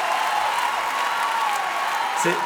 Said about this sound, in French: C'est extraordinaire que vous applaudissiez autant à la fin de cette chanson, alors qu'en fait, c'est vous qu'il faudrait applaudir.